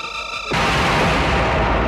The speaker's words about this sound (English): The craft fires. Barbarella returns fire. The craft explodes.